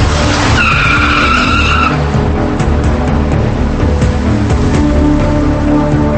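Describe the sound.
A car peels out after paying a toll, its tires squealing in a sharp high screech for about a second and a half over a loud, continuous rushing roar of engine and road noise.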